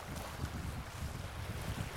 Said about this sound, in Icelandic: Öldugangurinn hérna alveg upp eftir öllu og frissast hérna upp á steinana. Og voðalugur hávaði í brýminu.